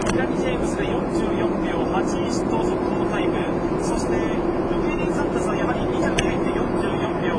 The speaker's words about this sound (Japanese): 飛行機が飛んでます。